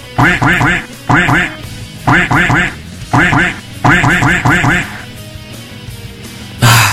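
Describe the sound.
A duck quacking sound effect plays loud, short, nasal quacks in quick rhythmic clusters separated by brief pauses. A faint murmur sits underneath.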